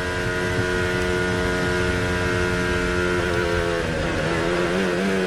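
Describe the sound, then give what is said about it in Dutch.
A Formula 1 car braking early to recharge gives a continuous, loud, buzzing engine whine with steady harmonics that shifts and wavers in pitch toward the end. “Opladen, hoor je dat? Dit is duidelijk vroeger aanremmen dan nodig is.”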